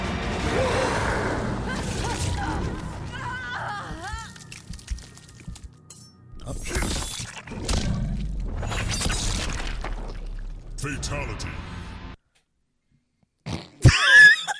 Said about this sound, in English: Scorpion is going to ignite himself and then shoot his entire body through Sonya Blade. So that's the setup.